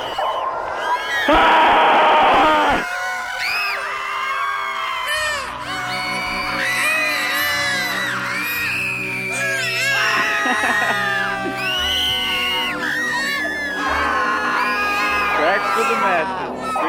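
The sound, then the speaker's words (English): Several people screaming: an intense burst of screaming opens, followed by continuing loud, varied shouts, whoops and yells from multiple voices. “I think everyone could use a nice scream about that. Oh, I could scream about that. Go for it.”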